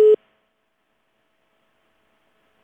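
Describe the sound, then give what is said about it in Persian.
A single short telephone beep sounds as a call to a radio call-in line cuts off, followed by near silence with only a faint steady hum. “متاسفانه دیگه تماس از اینا قطع شده”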